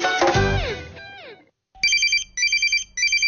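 A telephone rings in three loud, high, warbling electronic bursts with short gaps between them. A bright, descending electronic jingle comes first, followed by a brief silence.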